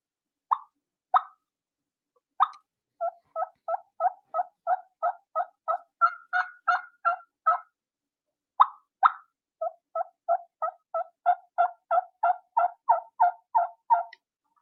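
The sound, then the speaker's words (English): Hen turkey tree call and clucks imitated on a mouth call: a few sharp, spaced clucks, then long, even runs of soft rapid yelps and pips, all heard alone without talk. “That's going to sound like this, a mouth call. This is just a hen waking up on the limb and you're letting that gobbler know that there is a hen nearby.”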